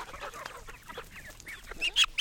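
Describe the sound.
Farm chickens cluck in a rapid, irregular run of short, fairly high calls, softer at first and rising to a few louder, sharper squawks near the end.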